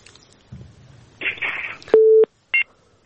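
Telephone busy tone on a dropped call: crackly, noisy line hiss gives way to one loud, steady low tone, followed by a short, higher burst.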